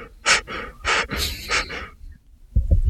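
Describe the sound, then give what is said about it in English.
Light, muffled breathing through a hand held over the mouth and a bandana: a few soft breathy bursts with short gaps between them, then a low, rough rustling noise at the end. “Puts his hand up over his bandana. Tries to breathe lightly.”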